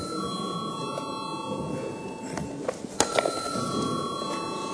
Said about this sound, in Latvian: bet deputāti prasa balsojumu, lūdzu zvanu.